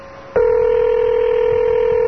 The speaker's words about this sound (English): We should at least make a phone call, right?